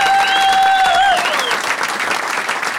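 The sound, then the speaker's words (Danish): A studio audience claps loudly and continuously as a guest is welcomed on a Danish talk show, with bright sustained tones sliding over the first second. “Giv en kæmpe stor hånd til ham.”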